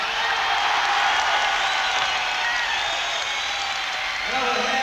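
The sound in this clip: A crowd applauds and cheers to welcome the guitarist at a concert, a dense, unbroken roar of clapping that stays loud and even throughout.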